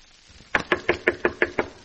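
Seven sharp knocks on a door, loud and evenly spaced in a quick steady rhythm, following a short stretch of quiet.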